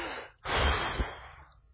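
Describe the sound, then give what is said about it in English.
A single deep breath is taken during a group pause, a loud, airy rush of breath lasting about a second, heard alone with no talk. “And so let's just take a breath together, shall we? Everybody take a deep breath.”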